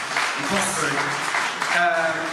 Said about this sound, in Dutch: Maak een groot applaus voor Bert Verheijnen.